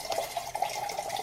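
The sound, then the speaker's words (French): Tap water runs into a kitchen sink as dishes are washed in a home in a Gaza refugee camp, giving a brief, steady splashing flow with light dripping. “Désolée, je fais la vaisselle seulement maintenant, mais on n'avait pas d'eau non plus ce matin.”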